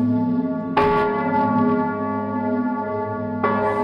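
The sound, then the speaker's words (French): Church bells ring out over a village at night in December, with two heavy strokes a few seconds apart and a rich, humming tone that sustains steadily between them. “Dans ce village, cette nuit-là, les cloches sonnent.”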